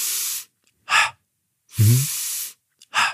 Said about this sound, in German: Also der Fokus ist in der ersten Phase auf tief einatmen, relaxed ausatmen. Das hört sich ungefähr so an.